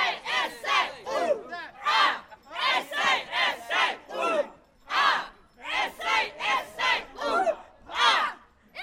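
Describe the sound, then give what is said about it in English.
Rhythmic crowd chanting and cheering from the South Australia team at the bowling, many loud repeated shouted bursts in steady pulses, with a final louder burst near the end. “I think you can hear the South Australia are pumped at the bowling.”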